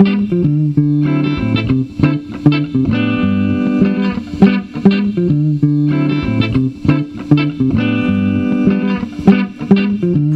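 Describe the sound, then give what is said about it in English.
A bass line added to a short music example: a steady, repeating groove of low notes under distorted, effects-heavy instrument tones, played continuously with no voices. “Now, what would it sound like with a bass line? It would sound something like this.”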